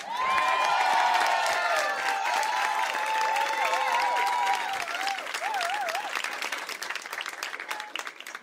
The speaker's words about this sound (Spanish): Pido un aplauso muy fuerte